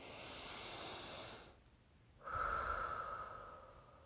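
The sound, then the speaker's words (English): A deep human breath, slow and unhurried, heard as two long, soft, breathy phases separated by a short pause, with no talk over it. “Bring in silence. And taking a deep breath.”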